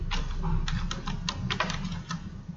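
Typing on a computer keyboard while a code's wording is drafted in a meeting: many quick, irregular key clicks over a low steady murmur.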